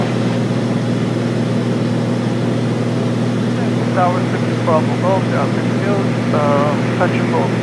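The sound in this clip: Twin-engine airplane taking off from a runway: a steady, droning engine roar holds throughout, while a voice talks over it.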